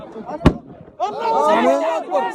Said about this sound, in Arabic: سامين ده ده سلاح اللي انضرب. سامين لو نحن صحيحين من سفارة ده سلاح.